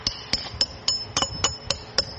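A small hammer taps traditional tiles in a tile workshop at Herat's Great Mosque: a steady run of light, sharp, ringing strikes, evenly spaced about a quarter second apart.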